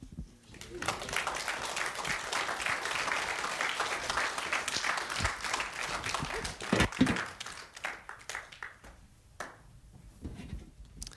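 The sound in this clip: Audience applause welcoming a speaker: dense, sustained clapping that stays full for several seconds, then thins into scattered claps and fades near the end.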